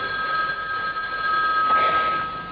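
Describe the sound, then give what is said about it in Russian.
A telephone rings on a call placed to a pharmacy, with the handset held up to a speaker: one steady electronic ringing tone, loud and continuous, with no voices. “Затем поднесли трубку к колонке и позвонили в эту аптеку.”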